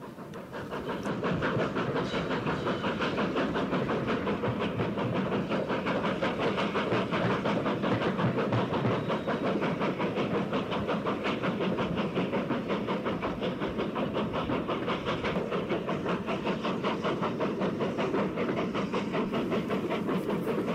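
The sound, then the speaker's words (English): A steam locomotive of the B1 class hauls an excursion train past a railway junction in December 1966, making a loud, steady rumble and hiss with a fast rhythmic beat that holds evenly for about twenty seconds. “And this is the sound of an excursion passing Riccarton Junction on 3rd December 1966.”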